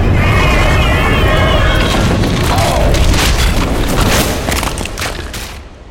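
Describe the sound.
A magical backlash explosion rips through a research laboratory: a loud, dense roaring blast with warbling, shimmering tones at the start, rumbling steadily for several seconds before slowly fading out.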